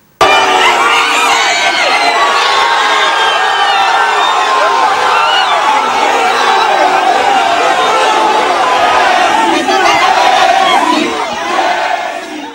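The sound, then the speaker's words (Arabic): Hundreds of fans cheering and chanting outside Messi's hotel on his 39th birthday, a dense, loud, continuous roar of shouts and voices that eases slightly at the very end. “بمناسبة عيد ميلاده 39 اتجمعوا المئات خارج الأوتيل تبعه للاحتفال فيه بمشهد مليان هتافات وأضوية وهواتف مرفوعة”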